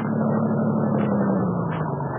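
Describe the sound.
A captured invader car's engine runs in a steady, loud low drone, its pitch sinking slightly as it goes on, with no voices.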